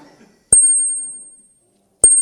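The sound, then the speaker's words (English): Two bright, high handbell strikes ring from a handbell choir, each with a sharp attack. The first tone sustains and slowly fades before the second rings out near the end. “what a range that are here among the bells and chimes of the Three Rivers Ringers.”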